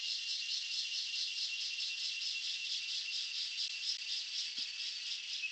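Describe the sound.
Insects chirp in the mountains, among them cicadas, in a dense, high, rapidly pulsing drone that stays steady and fairly loud throughout, with no voices.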